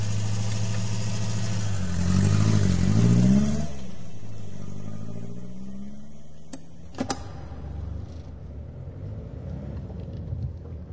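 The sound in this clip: An armored vehicle's engine revs loudly for a moment, then settles into a lower, steadily fading drone as the vehicle drives off. A couple of brief clicks sound near the end.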